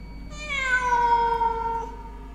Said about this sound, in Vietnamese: con mèo nhảy tọt lên trên khung cửa sổ, kêu lên những tiếng ghê rợn